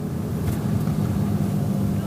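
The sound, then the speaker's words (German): A car's engine drones low and steady as it drives a short detour up a hillside road among vineyards. The rumble holds at a constant level throughout, with no clear changes in pitch. “Also ich fahre jetzt gerade noch einen ganz kleinen Schlenker auf den Leistenberg, damit ihr das auch gesehen habt”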